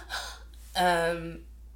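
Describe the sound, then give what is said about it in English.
A voice imitates a newborn baby gasping after a breech birth: a short breathy intake, then a longer, strained voiced gasp that fades out. “Baby comes out and she's wailing her arms and gasping like,”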